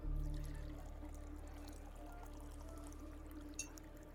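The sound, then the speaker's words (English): A pint of drink is poured from a tap or bottle: a soft, steady hiss of liquid runs faintly and evenly through the whole clip, with one small click near the end and no voices. “Pour me a pint, please. Happy to do so, the human says and begins pouring you drinks.”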